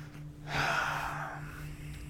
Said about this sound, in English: Deep breath.